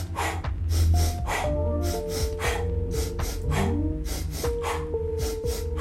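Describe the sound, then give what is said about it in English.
Rhythmic breathing exercise with a double inhale followed by a single exhale, many airy breaths repeating in a steady pattern over soft music with sustained tones and a gentle melody. “It was a single inhale, a double exhale. We're changing it around this week. Double inhale, single exhale.”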